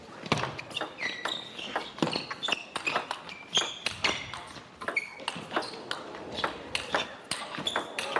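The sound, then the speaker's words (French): Table tennis ball clicks during a rally at the team world championships, including a net clip: many sharp, quick taps in an irregular rhythm, fairly faint, with small squeaks between them. “La balle, en fait, quand elle a accroché le filet, elle a pris une courbe un peu étrange et il a réussi vraiment à se baisser sur les jambes.”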